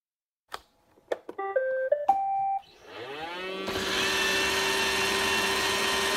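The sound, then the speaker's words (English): A Roomba robot vacuum cleaner starts up: a few sharp clicks, then a short chime of stepped electronic tones, followed by the motor whining up in pitch into a steady, loud whirring hum. “Now, if you didn't recognize its startup chime, this is the sound of a robot vacuum cleaner. A Roomba, to be specific,”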